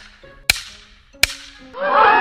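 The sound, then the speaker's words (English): A voice imitates a baseball striking a youth center fielder's teeth, a sound likened to a golf ball hitting aluminum siding: two sharp cracking hits followed by a harsh, noisy burst. “the center fielder decides to catch the ball with his teeth. And my god, the sound that it made sounded like a fucking golf ball hitting aluminum siding. It was like...”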